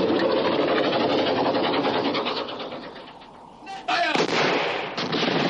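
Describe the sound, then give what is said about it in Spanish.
Gunfire in a World War II battle scene as a hail of bullets strikes a position: a dense, continuous crackling volley that dips briefly before a loud burst renews the barrage near the end. “El cretense se aleja mientras una lluvia de balas cae sobre su última posición.”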